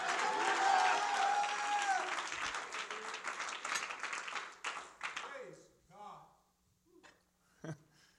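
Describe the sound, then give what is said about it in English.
A church audience claps during a sermon, dense applause that swells early, then thins and fades as a voice speaks over it and carries on alone. “if you believe that, would you clap your hands to the Lord?”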